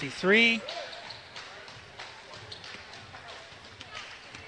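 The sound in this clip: Basketball bouncing before a free throw at a high school game, with a few faint thuds under a commentator's talk, after a brief high rising squeak at the start.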